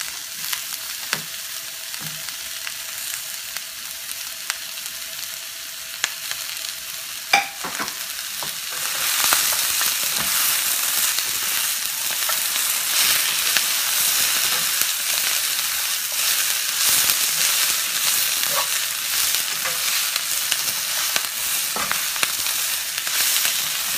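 Meat frying and sizzling in a pan. A fairly quiet crackle swells partway through into a loud, steady hiss, with scattered light ticks as it is stirred.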